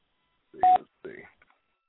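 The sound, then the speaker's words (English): Touch-tone telephone dialing as a number is entered, a few short, clean beeps separated by brief gaps in an otherwise quiet clip. “Okay, we're dialing the number. We're going through right now.”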